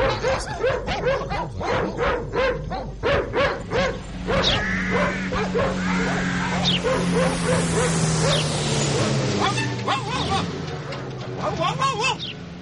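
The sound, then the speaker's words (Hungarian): Dogs bark in a yard in quick, repeated, loud bursts, then turn to drawn-out whining and yelping over a steady background. “Mit ugattok itt az udvarban? Egész nap csak van. Van az udvarban, mit ugattok? Egész nap ugattok?”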